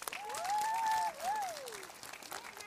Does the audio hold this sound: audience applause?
yes